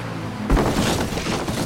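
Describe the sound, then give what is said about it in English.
A forklift crashes into a giant pile of boxes: a sudden heavy impact at about half a second, followed by a dense, rumbling clatter of noise that carries on to the end. “I drove into a giant pile of boxes.”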